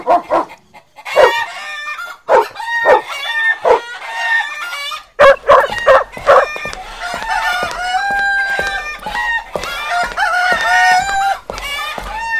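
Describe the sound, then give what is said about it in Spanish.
A rooster crows early in the morning, several loud, tonal crowing calls with clucking fowl and dog barks, at first in short separate bursts and then as a denser, sustained stretch. “Al día siguiente, se escucha muy temprano al gallo cantar.”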